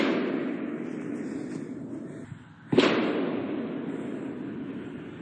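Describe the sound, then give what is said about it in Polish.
A single sharp gunshot from a nearby shooting range cracks out midway through, a loud crack that rises from a constant low background rumble. “I to dosyć głośno jest, bo to jest blisko strzelnica. No i słychać, no. I zrobili mur czy coś, który to odbija.”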